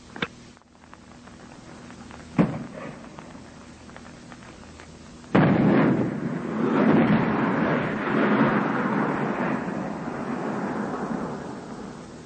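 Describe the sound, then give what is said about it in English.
High-explosive HEAT artillery rounds go off at night during an alert: a few sharp blasts in the first half, then a loud, sustained rolling rumble that carries on to the end, with no talk. “Those were heat rounds, high explosive.”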